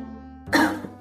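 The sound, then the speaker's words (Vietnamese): A single short, dry, deliberately faked cough breaks out of near silence, followed by a faint catch of breath. “Âu Thừa Duẩn hơi mất tự nhiên, giả vờ ho khan một tiếng, che đậy sự bối rối”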